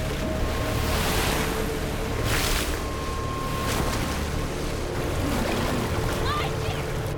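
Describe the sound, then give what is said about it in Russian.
Turbulent river rapids right after a boat capsizes: a loud, steady roar and hiss of rushing water that holds without a break throughout. “Течение несет Мэлори в бурном потоке порога.”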